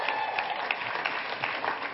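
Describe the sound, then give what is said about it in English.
Audience applause for a congratulated couple as they take their seats, a dense, steady wash of clapping that holds at an even level throughout. “Give them a big hand as they take their seats.”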